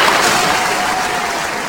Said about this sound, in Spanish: Bravo, un aplauso, un aplauso.